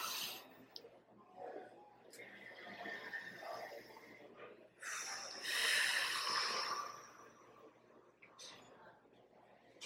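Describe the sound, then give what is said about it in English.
Deep breathing during a guided meditation: a slow, airy breath drawn in and let out, soft hissing rushes that swell and fade over several seconds, with faint clicks and no talking. “So again, we're creating that energetic loop. Take another deep breath.”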